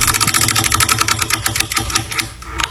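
A prize wheel spun in a game for concert tickets ratchets with a rapid run of loud, sharp ticks that gradually slow and spread apart toward the end as the wheel coasts, with no talking over it.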